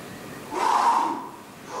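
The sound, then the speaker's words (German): Breathing in and out during a breathing exercise: one soft, rushing breath swells and fades, then another begins at the end. “Jetzt einatmen und ausatmen.”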